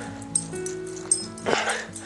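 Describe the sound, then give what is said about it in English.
A young dog barking and whimpering: faint, high whining tones broken by a few short yelps, with no talk. “if you live in TH5, you probably have heard that dog by now”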